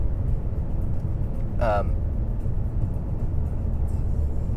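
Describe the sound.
A car being driven gives a steady, fairly quiet low rumble that runs unbroken throughout, with one brief higher chirp partway through.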